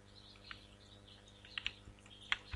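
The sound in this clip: Computer keyboard keys pressed on a Windows PC, a few sparse, faint plastic clicks spread out over quiet background hiss, with two taps landing close together.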